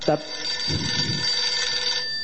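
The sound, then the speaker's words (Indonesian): A telephone rings with a steady electronic tone that lasts the whole stretch, with people talking under it. “Ada yang telepon. Kita angkat dulu. Angkat aja dulu.”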